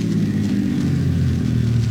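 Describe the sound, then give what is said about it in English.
A bus engine rumbles as the bus pulls in at a regular stop, a low, steady motor drone that stays fairly loud throughout. “Bus just pulled in. Yeah, it's one of the regular stops here.”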